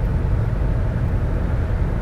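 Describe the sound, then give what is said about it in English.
A car engine hums steadily while driving down a road, a low, even rumble of engine and road noise with no clear breaks or distinct bumps. “Do I feel anything other than peace right now? Like going down the road, the engine humming, the tires going over the bumps,”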